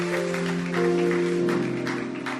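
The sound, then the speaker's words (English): An audience claps during a church worship service, the sharp hand claps falling in a steady rhythm over sustained, droning musical tones that hold throughout. “Clap your hands unto the Lord and bless his name.”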